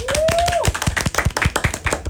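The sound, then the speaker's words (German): Hands clap in quick applause: many rapid, sharp claps in an even rhythm. “Großer Applaus für meine Cousine.”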